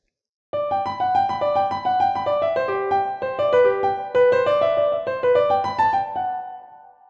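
Piano plays a lively Bach jig slurred and legato, its bright melodic notes flowing smoothly into one another in a steady, bouncing rhythm before settling on a final held note that fades away. No voices are heard.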